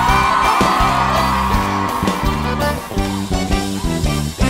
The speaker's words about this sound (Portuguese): Dá um grito aí, vai!